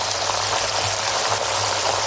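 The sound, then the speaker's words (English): A pair of 32-day matured sirloin steaks sizzling in pure Irish butter gives a dense, steady crackling hiss that stays even from start to finish, with no talking. “This is the sound of a pair of 32-day matured, award-winning sirloin steaks cooking in pure Irish butter.”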